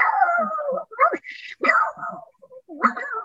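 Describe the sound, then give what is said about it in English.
A voice imitates a pug barking with a few strained, whiny yips and howl-like bursts separated by short gaps. “So I actually used the voice to bark like a pug.”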